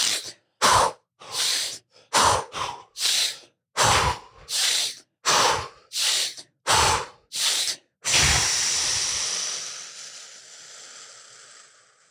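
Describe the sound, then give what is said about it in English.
Fast, forceful breathing in through the nose and out through the mouth: many short, sharp breaths in a steady rhythm, then one long exhale that slowly fades. “We're going to go breathing in through the nose and out through the mouth for five.”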